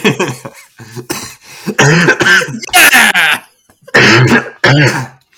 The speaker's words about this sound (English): We gotta get you a mute button or something, or fine you every time you cough.